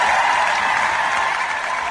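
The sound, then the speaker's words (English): Loud, sustained applause from a live-show audience in front of a stage, an unbroken roar of many clapping hands holding steady from start to finish. “Americans are so polite. I wouldn't be cheering.”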